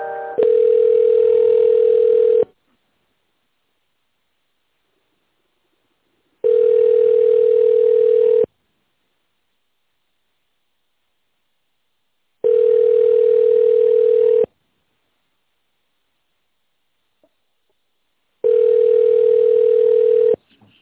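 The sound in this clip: Telephone ringback tone while a call is being transferred: four steady two-second tones at one pitch, each separated by about four seconds of silence, with no voices.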